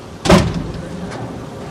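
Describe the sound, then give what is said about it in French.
Someone tries to open a metal gate door, giving a single short clank that fades into faint rattling and low background noise. “Il s'approche de la grille et tente d'ouvrir la porte.”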